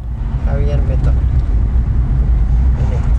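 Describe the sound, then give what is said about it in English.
A car drives across Carrasco, its engine and road noise forming a steady, low, loud drone. A faint voice briefly rises over it. “Anna drives me across Carrasco, past the house of Roberto Canessa.”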